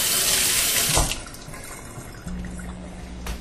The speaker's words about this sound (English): so I'm just going to give them a quick rinse so that we don't end up with cocoa on every available surface in the kitchen